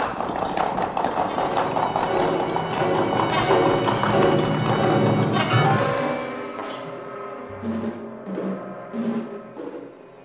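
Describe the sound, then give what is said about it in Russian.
Horses gallop along a road, a loud, busy clatter of hooves for about six seconds that then fades into quieter, sustained tonal sounds. “выкарабкался опять на дорогу, как раз под ноги коню, скакавшему впереди всех.”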